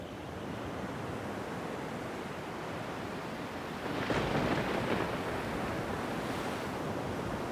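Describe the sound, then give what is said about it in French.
Sea water washes over a coral reef in a steady, broad rushing noise that swells noticeably louder about halfway through and then holds. No voices are heard. “On écoute tout de suite le récif et les résidents.”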